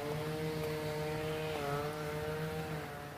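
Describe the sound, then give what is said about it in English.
Steady drone of small engines from a weed whacker and a riding lawn mower running outdoors on a street. The low hum holds a sustained pitch that wavers briefly midway and stays fairly faint throughout. “See this guy with the weed whacker. You probably hear the guy with the weed whacker. And the guy in a riding mower powering it up down the street.”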